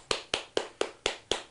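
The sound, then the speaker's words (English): One person's hand claps after a song, asking for an encore: six sharp, evenly spaced claps in a steady rhythm, fairly quiet and with no other sound around them. “We actually, I'm going to clap”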